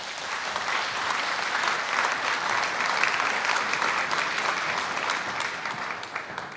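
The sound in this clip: An audience at an open-air talk applauds to welcome a speaker, with dense, even clapping that holds steady throughout and eases slightly at the very end.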